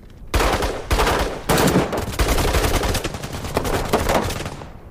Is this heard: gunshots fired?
yes